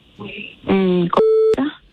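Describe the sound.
Telephone tones sound while a call is being placed: two steady electronic tones follow one another, each lasting under half a second, then a brief blip. They are loud and clean against near silence.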